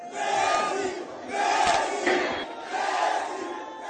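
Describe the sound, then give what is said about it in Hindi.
Crowd of football fans at Kolkata airport cheering and chanting for Lionel Messi, with three loud, surging swells of many voices roaring together. “दिग्गज footballer Lionel Messi GOAT India tour के लिए आज सुबह कोलकाता पहुंचे। हजारों की संख्या में फुटबॉल प्रशंसकों ने हवाई अड्डे पर उनका जोरदार स्वागत किया।”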